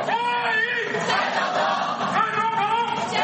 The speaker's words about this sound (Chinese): 大批台侨仍热情不减，数百人顶着寒风摇旗呐喊，热烈欢迎蔡英文总统的到访。